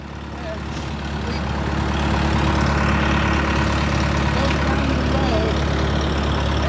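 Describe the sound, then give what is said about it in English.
Engine of an orchard sweeper with a blower mounted on the back, running as a steady, loud, low drone that swells slightly early on and then holds even throughout. “That's a sweeper with a blower on the back of it, and this up here is a shaker.”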